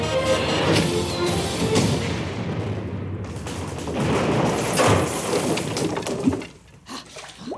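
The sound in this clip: An explosion as a battleship is blown up and sunk: a loud, sustained roar with crackling bursts that lasts several seconds, then drops away abruptly to a few faint sounds.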